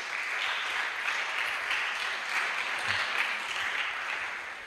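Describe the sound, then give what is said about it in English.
An audience clapping hands in praise during worship, a fairly soft, continuous patter of many hands with a gently pulsing level. “I thought you'd be clapping your hands and give God praise.”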